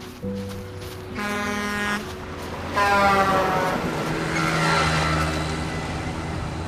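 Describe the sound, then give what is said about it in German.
A car braking to a stop beside a hitchhiker at the roadside, its brakes giving loud, sustained, tonal squeals in a few bursts over a rumbling road noise, with no voices. “Als ich die Hand raushalte, bremst in derselben Sekunde ein Auto.”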